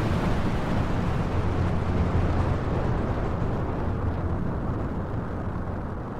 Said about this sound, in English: 10, 9, 8, 7, 6, 5, 4, 3, 2, 1, blast off!